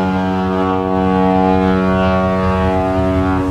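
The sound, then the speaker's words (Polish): A ship's siren blares directly overhead as the ship departs, one loud, sustained, deep harmonic tone that holds steady for the whole stretch. “Syrena ryknęła tuż nad moją głową.”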